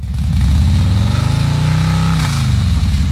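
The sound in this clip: A vehicle engine speeds up as the rider hurries to work, its revs climbing steadily in a loud, throaty drone before easing off slightly near the end, with no talk over it.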